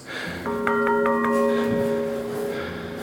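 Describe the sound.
Church bell in a tower with huge wooden beams, struck a few times in quick succession. Each strike leaves bright, sustained ringing tones that hang and overlap, with a steady hum underneath.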